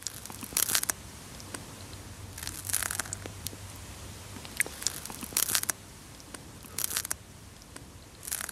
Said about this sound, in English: that's the sound of a snail chowing down on a piece of lettuce.